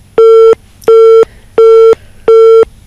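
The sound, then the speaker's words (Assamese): Telephone busy tone after a call disconnects on a phone line with connection trouble: four identical steady beeps at one constant pitch, evenly spaced with short silent gaps between them, fairly loud and with no voices. “ফোনটো চাগে disconnect হৈছে, আজি phone লাইনটো বৰ অসুবিধা দিছে আমাক”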